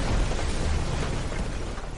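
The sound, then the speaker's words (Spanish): A bridge over the Rhine blows up in a wartime explosion, heard as a heavy, sustained roaring rumble with deep low-end weight that churns on without easing. “Sin embargo, cuando empiezan a cruzar, ¡Feuer! Se produce una enorme explosión.”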